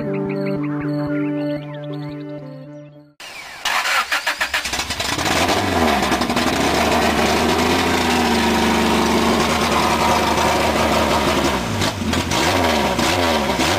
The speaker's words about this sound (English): We got PFI making just enormously too much amount of horsepower right there on the dyno.